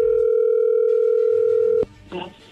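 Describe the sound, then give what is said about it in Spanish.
Telephone dial tone while calling someone: a loud, steady, unbroken tone for nearly two seconds that cuts off with a sharp click, followed by a brief fainter sound. “Vamos a marcarle a Guadalupe”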